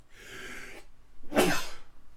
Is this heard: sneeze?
yes